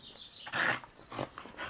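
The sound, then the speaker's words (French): A dog gives a few faint, breathy whimpers and short yips in brief separate bursts, with a slightly louder one near the middle. “J'ai un chien, je l'ai adopté il y a 2 ans.”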